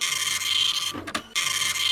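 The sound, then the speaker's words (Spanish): An old printer runs with a steady, high-pitched mechanical whir that briefly breaks into a clunking pause midway, then resumes at the same level. “Está, ya lo tengo el cable, sigue andando. Ya. Digo yo, ¿no es un poquito antigua la impresora?”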